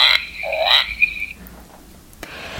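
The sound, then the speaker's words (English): A frog croak played from a button on a children's sound book: one loud, warbling croak at the start, then near quiet with only a faint click afterward. “So there's the frog there. Where's the button? It's here.”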